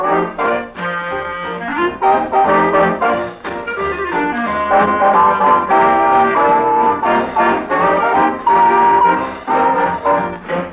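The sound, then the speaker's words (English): Eight bars of American jazz, a popular dance-band tune, played loud and full by an instrumental ensemble with a bouncy, steady rhythm and bright melodic lines, no voices. “In those 8 bars of American jazz lies a story.”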